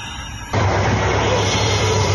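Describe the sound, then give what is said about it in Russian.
A copter drone takes off near an area of gunfire. After a quieter half second, a loud, steady engine-like roar cuts in abruptly, with a low droning hum under broad rushing noise that holds to the end. “Вот он, коптер опять взлетел.”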